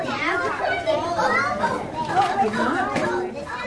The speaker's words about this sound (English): If most pre-K classes are like the ones at College Heights Early Learning Center in Decatur, they're noisy.